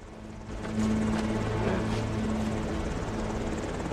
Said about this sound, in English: A chopper lands on one side of the border fence.